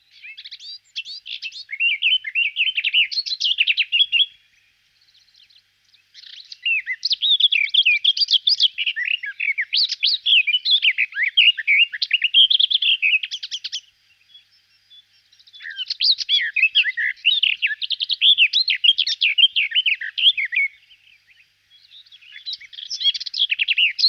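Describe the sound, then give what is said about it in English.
Garden warbler song: long, fluent phrases of rich, rapid warbling notes with endless subtle variation and few harsh elements, delivered as a few extended bursts separated by short pauses, loud and clear with no voices. “Garden warblers like long phrases without many harsh elements and like to sing for extended periods with endless subtle variations.”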